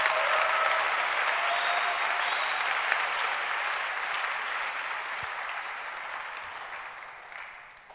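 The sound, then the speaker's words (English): Audience clapping during a church sermon forms a dense, steady wash of applause that starts strong and slowly fades over about eight seconds. “Are you clapping or you are clipping your fingers?”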